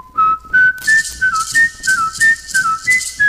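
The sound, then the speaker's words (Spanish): A person whistles a tune: a lively melody of many short, clear, high notes stepping up and down in pitch. It is loud and steady, with breaths between phrases and no talk. The whistler has whistled since age ten and has won championships. “Entonces yo pues desde la edad de 10 años estoy silbando, ya me he ganado 5 campeonatos, 3 nacionales y 2 mundiales.”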